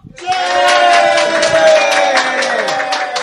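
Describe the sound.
Cheering and clapping rise from an audience at a live anniversary talk event, with loud, sustained whoops over scattered claps after a brief quiet start.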